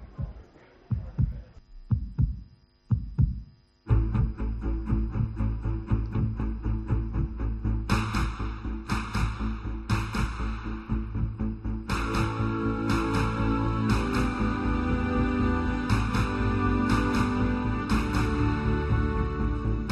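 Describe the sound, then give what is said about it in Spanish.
Spanish football league anthem built from the recorded heartbeats of 90 newborn babies and the clapping of fans from first and second division clubs, mixed at Abbey Road Studios. Several deep, separate thumps open it, then loud, dense music with rhythmic bursts of clap-like hits. “latidos de corazón de bebés recién nacidos, 90 bebés recién nacidos, se grabó el latido de su corazón, palmas de los aficionados de todos los equipos de primera y segunda”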